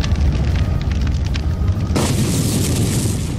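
A fire stream attack in a video game battle, heard as a dense, continuous roaring whoosh with a heavy rumbling low end that turns brighter and hissier partway through, without any break.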